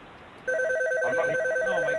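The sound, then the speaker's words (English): Several telephones ring at once at a coffee business, forming a loud, steady electronic warble that begins abruptly about half a second in and continues without pause to the end. “We have like 10 phones here and they're all ringing.”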